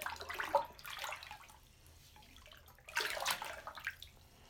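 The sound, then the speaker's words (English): Bathwater swishes as bubble bath is stirred into a filled tub, in two soft bursts of sloshing and splashing separated by a quieter pause, faint throughout. “More bubble bath coming up. There we go. We'll stir that around.”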